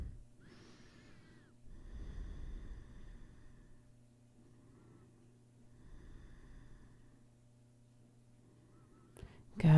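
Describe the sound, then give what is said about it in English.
Slow, deep breaths during a yoga workout: a few long, faint inhales and exhales over a low steady hum, with a sharper sound at the very end. “Keep breathing. Let's say 3 more massive breaths here.”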